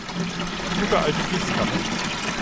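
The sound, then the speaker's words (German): Water pours into a green watering can, drawn from a homemade storage tank fed by a pond, with a steady splashing trickle throughout. “Er nimmt eine grüne Gießkanne und füllt sie mit Wasser aus einem selbstgebauten Speicher, der gespeist wird aus einem Teich.”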